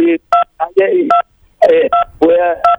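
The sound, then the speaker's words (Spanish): Telephone keypad dialing tones beep over a phone line: several short, steady two-tone beeps interrupt a person talking, alternating quickly with bits of voice. “Se está marcando el teclado, parece.”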